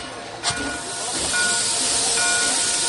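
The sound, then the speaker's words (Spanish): Loud, steady hiss of steam as a steam train starts to move in a Western setting, with a sharp burst of venting near the start and faint whistle-like tones riding over the continuous rushing noise. “El tren se pone en marcha y Eta”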